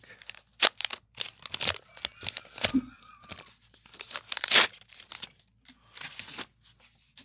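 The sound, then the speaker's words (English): A letter opener slitting open a mailed envelope: many sharp, crisp tearing and crinkling paper bursts in irregular succession, fairly loud. “I'm going to open it for you with this letter opener.”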